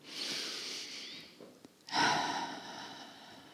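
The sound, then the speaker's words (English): A slow, deep breath taken during a guided relaxation with eyes closed: a long, soft, airy inhale, a brief pause, then a fuller exhale that fades away, with no talking. “Nice deep breath.”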